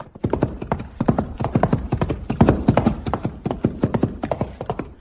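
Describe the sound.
Horses trotting at a jog, their hooves clip-clopping in a quick, steady rhythm of many sharp, loud beats that carry through the whole stretch with no voices.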